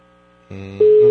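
Telephone line tone on a call that goes unanswered: a faint hum, then a buzzing electronic tone cuts in, followed by a louder, steady, pure beep that holds to the end.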